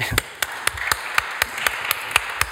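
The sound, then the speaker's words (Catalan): Applause at a presentation event, heard as steady rhythmic clapping: about ten sharp claps at an even pace over a low background hiss. “podríem fer un aplaudiment ben gran”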